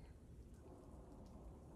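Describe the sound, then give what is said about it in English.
A thunderstorm with steady, hissing rain over a deep, continuous rumble of thunder, faint and unbroken throughout. “It's just the storm. Master, I hate the thunder.”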